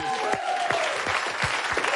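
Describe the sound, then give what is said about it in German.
Studio audience applause at a show, a dense, steady clatter of many hands clapping at moderate loudness, with a voice briefly audible over it. “Großen Applaus.”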